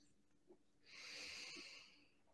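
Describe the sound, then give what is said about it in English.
A single slow, deep breath sounds as a faint, airy hiss that swells and holds for over a second, then fades, with no talking around it. “Take a breath”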